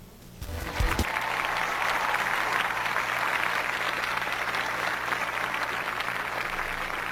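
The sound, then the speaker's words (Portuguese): Applause from a gathered crowd at a religious celebration of the day, starting abruptly and continuing as dense, steady clapping to the end. “Então, para celebrarmos tudo isso, vamos aplaudir esse dia que começa, que ele seja feliz e abençoado para todos nós, e agradecer a Deus pelo dom da vida, por estarmos aqui.”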